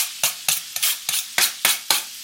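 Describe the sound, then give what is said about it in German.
Onions and smoked bacon sizzle as they melt and fry in a pan, with a steady, rhythmic series of bright scraping stirring strokes over a soft frying hiss. “Jetzt reinschmelzen lassen. Und auch die Zwiebeln dabei.”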